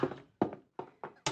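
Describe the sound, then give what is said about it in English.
Five dull knocks on a door in an uneven rhythm, each a short, solid thud that fades quickly, with brief silences between them. “Now, remember, one knock for Hugo and two knocks for Otto.”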